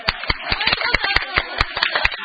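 Applause from a small group at a committee meeting to thank a departing member, a brisk, steady series of sharp hand claps throughout.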